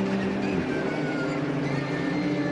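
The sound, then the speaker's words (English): Onboard a Porsche race car on track, a loud, steady engine roar is laced with a high transmission whine, continuous throughout without a break. “that wonderful noise and whine of the transmission from the Chazelle Technologies Porsche we ride on board with.”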